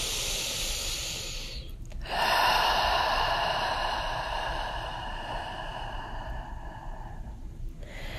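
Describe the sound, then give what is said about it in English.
A long, deep breath taken during a guided meditation, heard as a steady airy hiss that lasts several seconds, with a brief break early on before it swells and then slowly fades. “Take a deep breath.”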